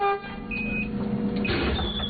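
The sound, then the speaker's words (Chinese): A bus card reader beeps as a child swipes a card boarding a school bus, two short, high electronic tones over a low vehicle rumble. “家长送孩子上车刷卡，汽车沿着蜿蜒山路缓缓向着横渡中心学校驶去”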